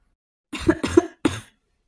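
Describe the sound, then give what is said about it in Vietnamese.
Dry coughing, three short, harsh coughs in quick succession, heard alone with silence before and after. “Yến Ngạc Thanh ho khan mấy tiếng.”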